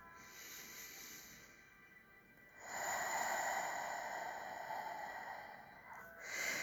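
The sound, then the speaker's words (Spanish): A slow, deep exhale during a relaxation breathing exercise, a soft, breathy hiss that swells and holds for a few seconds, faint throughout. “Vamos a exhalar toda el agua residual de nuestro cuerpo. Así que empezamos. Otra vez.”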